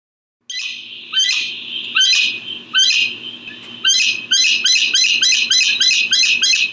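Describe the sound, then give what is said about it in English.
A gray-headed chachalaca calls loudly in a Panama rainforest, its harsh, raucous notes repeating and quickening from spaced bursts into a rapid, insistent chorus. “That is the sound of the gray-headed chakalaka, just one of many sounds you'd hear if you visited a rainforest in Panama,”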